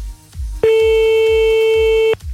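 A telephone line tone sounds as a call is placed during a radio phone-in: one steady, unbroken tone lasting about a second and a half, with a low pulsing beat underneath before and after it.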